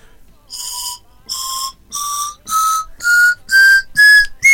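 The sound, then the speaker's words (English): A carved wooden whistle, not chromatically tuned, plays eight separate notes climbing stepwise from low to high, each clear, breathy tone held about half a second, getting louder and shriller toward the top. “They would specifically need to whittle it a little bit differently to make the whistle pop more player friendly.”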